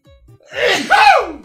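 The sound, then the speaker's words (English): A single big sneeze: a short, voiced, catching intake builds into a loud explosive burst whose tone slides downward, with faint quiet noise before it. “I'm going to sneeze. Hold on. Here comes the sneeze. It's a big one. I can feel it.”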